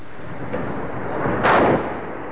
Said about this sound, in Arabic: الله أكبر، قصف الجوانب. الله أكبر، نفس الجامع.